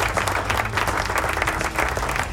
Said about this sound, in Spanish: así que aplauso desde a la gente de Barranquita.